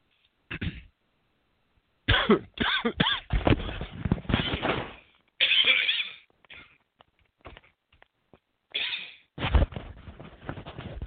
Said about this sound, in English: excuse me, just choked on myself.